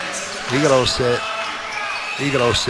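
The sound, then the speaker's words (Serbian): A basketball is dribbled during a professional game, a few dull bounces sounding under loud, fast play-by-play commentary. “igrao se puno s tom loptom i na kraju skoro izgubio”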